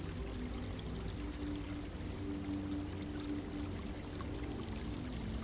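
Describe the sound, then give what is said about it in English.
A small stream flowing from distant woodland gives a steady, even trickling rush of water that stays at a constant low level throughout, with no voices. “On your right hand side, surrounding the little stream which flows from some distant woodland,”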